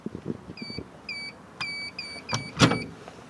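A green wall-mounted AED defibrillator cabinet with a white cross is pressed and opened, with low knocks followed by a series of short, high, repeating beeps and a few sharp clanks, all fairly quiet.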